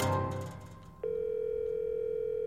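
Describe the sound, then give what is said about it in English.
A steady telephone tone on a call to a voicemail line, a single continuous mid-pitched hum that cuts in sharply after a fading, muddled sound and holds at an even level. “And when you rang Ollie, this is what you got, his voicemail.”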